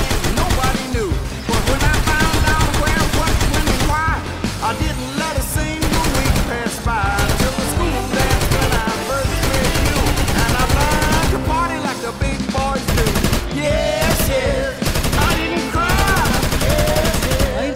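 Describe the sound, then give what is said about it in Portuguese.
Heavy gunfire from police weapons: dense, rapid bursts of shots run loud and unbroken through the whole stretch, with other busy sound layered underneath. “Em questão de segundos, elas se enchem de policiais que começam a estraçalhar tudo com sua artilharia pesada.”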